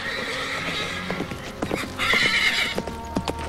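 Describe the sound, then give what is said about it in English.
A horse gallops in with rapid, thudding hoofbeats, then lets out a loud, high whinny as it pulls up and rears, and a few more hoof strikes follow. “Tyler's horse gallops back up to him, stops, and rears.”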